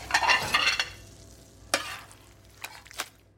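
Scrambled eggs frying and being stirred in a pan. A louder burst of sizzling opens, then it settles into a steady low hiss broken by a few sharp scraping strokes.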